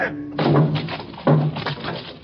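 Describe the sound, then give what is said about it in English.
A locked cabinet is smashed open with two heavy, loud thudding impacts that crash against wood, set apart by a short pause, with a faint trailing rattle after each blow. “Open it, Cato. Locked. Lock, Doctor. Smash it open. Open it. I do.”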